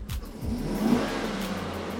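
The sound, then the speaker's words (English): Engine of a parked work truck running by the side of a street, a steady low rumbling idle hum with a slight swell near the middle and no voices. “the engine is still running. I'm still here pulled over on the side of the street, cutting a joint. So y'all gonna hear cars going by. Y'all gonna hear other trucks.”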